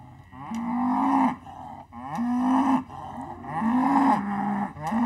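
Cows mooing, herd animals calling: several long, loud, low moos follow one another with short gaps between them. Each call swells up at its start, then holds steady before cutting off.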